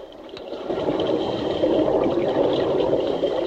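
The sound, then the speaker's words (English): A rushing burst of bubbles underwater from a diver's punctured air pipe. It begins as a softer hiss, then swells into a loud, steady bubbling roar that holds to the end. “In a burst of bubbles, the diver sinks slowly down to the seabed”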